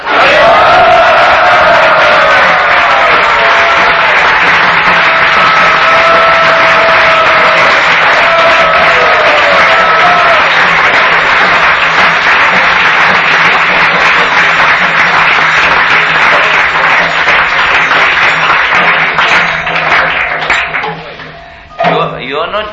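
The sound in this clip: A crowd cheers and applauds at a spiritual name-giving ceremony, a loud, dense roar of voices and clapping that continues unbroken for about twenty seconds before thinning out near the end.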